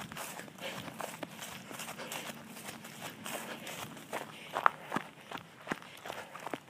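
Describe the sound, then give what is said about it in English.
Footsteps of a runner in running shoes, a steady rhythm of many soft, clumping thuds on each stride, fairly faint throughout. “I wonder if you can hear a little bit more of the clump of my feet on this run.”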